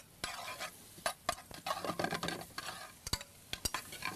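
Garlic, onions and peppers cook in butter in a pan. Repeated scraping stir strokes and sharp utensil clinks sound over a faint sizzle, irregular and fairly quiet.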